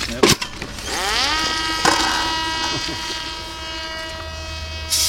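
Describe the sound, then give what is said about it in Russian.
An Eleron reconnaissance drone taking off: a few sharp clicks, then a motor whine that climbs quickly in pitch and settles into a steady, high, buzzing tone that continues to the end. “Это звук взлетающего беспилотника «Элерона». Он также изучается будущими разведчиками.”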